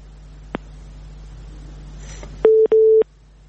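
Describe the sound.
Telephone dialing tones sound as a phone call connects: a single soft click, then two sustained dual-pitch tones back to back with brief clicks between, over a steady low hum.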